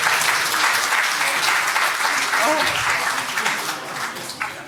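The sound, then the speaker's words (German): Big round of applause from a crowd at a film-night prize ceremony for third place: dense, sustained clapping that stays loud throughout and thins slightly toward the end, with some voices mixed in. “Großen Applaus.”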